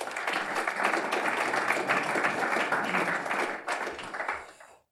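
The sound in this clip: Audience applause at the Lowy Institute welcoming a minister to speak: dense, steady clapping from many hands that holds for about four seconds, then thins out and fades away.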